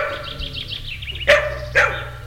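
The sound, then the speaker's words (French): Two sharp, loud barks from fierce-seeming dogs burst out over a steady low background noise, spaced about half a second apart. No one talks. “à cause des chiens qui semblent très féroces”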